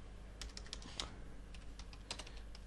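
Quiet tapping on a computer keyboard as a short comment is typed, an irregular run of light clicks with a few slightly louder keystrokes.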